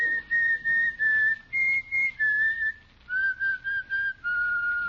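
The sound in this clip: A person whistles a tune: a clear, high melody of many short notes in quick phrases that step up and down in pitch, with a brief pause midway and no voices.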